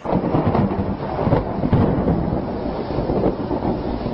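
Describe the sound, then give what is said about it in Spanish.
Thunder rumbles heavily and continuously during a storm, a deep, loud roll with rain hiss and wind buffeting underneath. “Después se oyó como un estruendo de truenos y los cielos se encendieron como rayos.”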